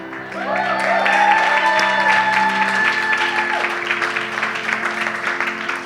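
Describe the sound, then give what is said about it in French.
An audience applauds and cheers during a French-language sermon. The clapping is loud and dense, with sustained musical tones held beneath it, and the whole stays full before easing slightly toward the end. “Si tu acclames, acclame bien.”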